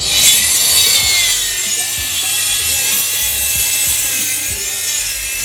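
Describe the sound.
A Japanese saw cuts through wood with a steady, bright rasping hiss that runs unbroken and fairly loud throughout, with a faint low rattle underneath.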